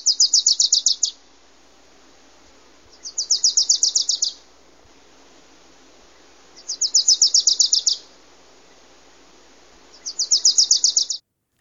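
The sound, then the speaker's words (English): A small, mostly yellow warbler with a black cap calls in town, giving four evenly spaced bursts of rapid, high-pitched chattering notes. Quiet pauses separate the bursts, and no voices are heard. “I do believe this is our smallest warbler that we have come visit with us. It's a mostly yellow, but it's got a bright black cap, which really distinguishes it from the others.”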